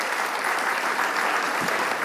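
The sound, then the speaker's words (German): Applause for a young girl who has bravely stepped up to a microphone: dense, even clapping from a group that keeps a steady level for about two seconds. “Ah, Amelie, du bist so mutig. Ein Applaus für die Amelie.”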